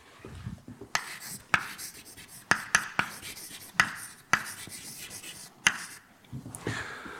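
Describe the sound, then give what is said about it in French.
Writing on a board, with scratchy strokes broken by several sharp, crisp taps at irregular intervals and a quiet rubbing texture between them. “Alors je vais écrire J, IJ.”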